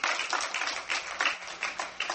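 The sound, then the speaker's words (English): A church audience gives a hand clap of praise to the Lord at the close of a sermon: fairly faint, dense clapping with scattered sharper hits, continuing steadily without talk. “If you begin with that intimacy with the Lord, get a Lord a hand clap of praise.”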